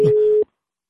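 A telephone tone sounds while a call is being placed: one steady, unwavering tone lasting under half a second, cutting off abruptly into silence.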